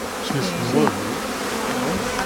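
Bees buzzing inside an opened beehive while larvae and an emerging bee are examined; a dense, steady drone wavers slightly in pitch throughout, with no voices.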